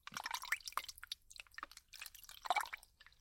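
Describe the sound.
Something is washed by hand with water, giving soft wet drips and squishy, squelching sounds in an irregular, quiet scatter throughout.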